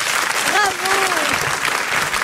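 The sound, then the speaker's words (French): Applause from an audience for a singer, a dense, steady clatter of many hands lasting throughout, with a voice briefly audible over it early on. “On applaudit Paul Delaf.”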